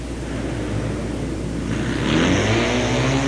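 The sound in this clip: Triumph 750 motorcycle racing on a track, its engine a steady droning roar that swells louder in the final second or so, with no voices over it.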